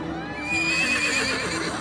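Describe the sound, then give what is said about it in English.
A horse neighs in one long, wavering whinny at an amusement fair with rides and crowds. The call holds steady over constant background noise for most of its length. “What's that? It's a horse.”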